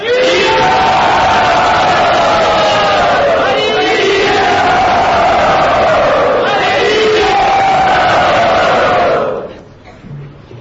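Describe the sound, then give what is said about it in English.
A temple crowd cheers enthusiastically to welcome a guest to Radha Gopinath's temple. Loud, sustained shouts swell in a few waves, then fade out near the end. “So everyone, with great enthusiasm, let us welcome Shravanananda Prabhu to Radha Gopinath's temple.”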